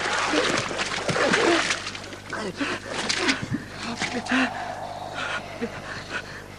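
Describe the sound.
Water splashes and sloshes as someone is pulled out of the water, with irregular bursts of splashing mixed with vocal sounds.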